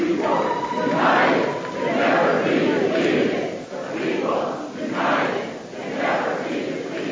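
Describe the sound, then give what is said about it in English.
Protesters packed inside the North Carolina General Assembly building in Raleigh during a Moral Monday demonstration chant and shout loudly together, the crowd noise rising and falling in rhythmic swells throughout. “That's the sound of protesters packed inside the state legislative building.”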